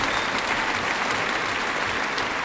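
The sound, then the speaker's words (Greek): A classical concert audience gives warm applause as a violinist and the other performers return to the stage. The clapping is steady, dense and even throughout. “Ο Ηλίας Λιβγεράτος, ο Λεωνίδας Καβάκος και ο Μιχάλης Οικονόμου επιστρέφουν στη σκηνή μετά από αυτό το έφθερμο χειροκρότημα του κοινού”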